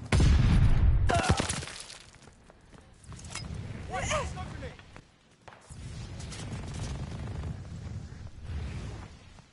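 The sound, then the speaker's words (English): A stun grenade goes off with a loud, heavy blast at the very start. Quieter rumbling and popping follow, with a man talking over them. “Watch the stun grenade!”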